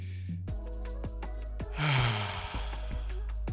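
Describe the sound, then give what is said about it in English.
A deep inhaled breath is taken on cue during a group breathing exercise. A short airy rush of breath, loudest in the middle, rises over steady background music tones and soft clicks. “So on three, we're gonna take a deep breath. One, two, three.”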